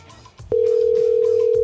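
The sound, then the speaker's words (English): A telephone tone on an outgoing call: after a brief low murmur, a steady single-pitched beep starts and holds loudly to the end. “Let's call them again, see how that worked out for them.”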